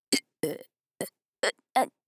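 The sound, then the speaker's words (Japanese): Someone burps five times without stopping, each burp a short, throaty burst separated by brief silent gaps, with no other sound between them. “ゲップ止まらない。”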